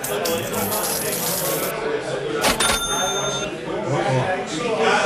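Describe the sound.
Coins handed over as payment at a pub bar give a brief bright clinking jingle partway through, under people talking against a busy background.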